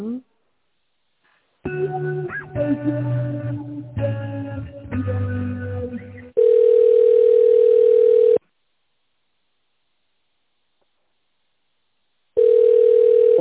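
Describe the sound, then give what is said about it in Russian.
Telephone ringback tone heard while a call is transferred to a manager: voices talk first, then two long, steady beeps separated by a lengthy silence. “Так, давайте я вас соединю с менеджером.”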